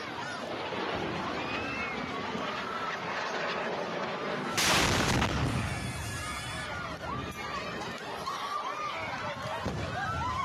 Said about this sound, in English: Here's what the video actually looks like when rockets are flying and you have 5 seconds to get your kids underground.